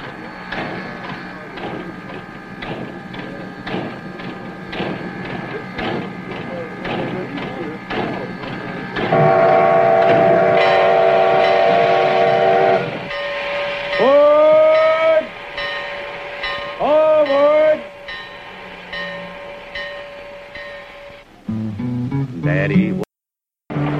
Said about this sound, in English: to ride in 14 passenger cars behind two giant steam locomotives 100 miles through the New England countryside.